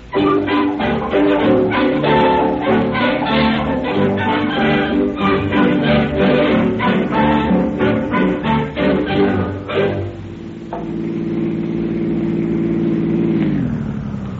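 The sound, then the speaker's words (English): A car engine runs loud and unbroken through the whole clip, a low, steady droning hum with no voices over it. “Come on, you better let me drive you home.”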